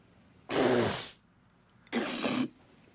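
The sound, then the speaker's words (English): Hawking and spitting of thick brown phlegm onto a burger's meat: two harsh, breathy bursts, the first longer and rougher, then a shorter wet one, loud against quiet surroundings. “Seabass lifts Harry's burger bat, leans over it, and spits thick brown phlegm onto the meat, then replaces the bat.”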